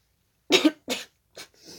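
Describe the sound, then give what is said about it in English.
A burp turns into a cough as a few short, harsh bursts. The first burst is the heaviest and lowest, and the later ones are fainter. “That was like a burp that became a cough.”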